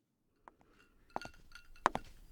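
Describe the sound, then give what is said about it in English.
Sharp glass clinks while another glass of soda is poured, a few bright, separate knocks that come closer together toward the end over faint handling noise. “I'll go pour you another one, you little brat.”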